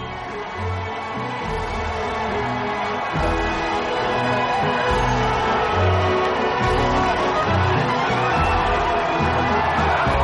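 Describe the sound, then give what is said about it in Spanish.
A crowd cheers and shouts as heroes ride through in a convertible amid thrown confetti, as if in a parade, a continuous, lively roar of many voices that grows slightly louder after the first few seconds. “La gente les vitorea y les lanza confeti mientras pasan entre la multitud en un descapotable como si fuese un desfile.”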